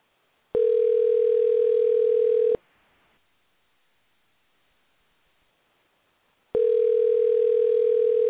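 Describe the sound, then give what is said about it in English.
Ringback tone of an outgoing telephone call: two steady electronic ring tones, each about two seconds long, separated by a silence of about four seconds. “Go ahead and dial him here. We got that ring.”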